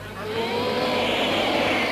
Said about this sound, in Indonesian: Pesawat.